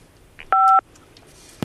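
A telephone keypad tone sounds once as a phone button is pressed. It is a short, steady two-pitched electronic beep, loud and alone, with faint clicks on either side.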